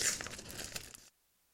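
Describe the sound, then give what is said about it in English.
An envelope is torn open with a rough, crackling rip of paper lasting about a second, then silence. “and I will open it live on the air. Today I got this envelope from my patron saint, Dr. Sir Mycrotch,”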